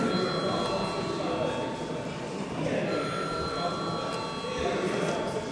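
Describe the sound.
An electric bell rings in a parliamentary chamber to call members to a vote, a steady, sustained ring that holds at an even level through the whole stretch with no breaks.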